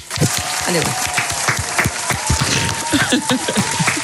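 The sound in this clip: Hands clap in a steady, fairly loud round of applause for a woman, dense scattered claps running throughout with voices talking over them.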